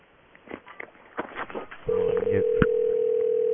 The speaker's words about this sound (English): What is it? I don't know what it is. It is the crapper phone. A pay phone inside of a bathroom.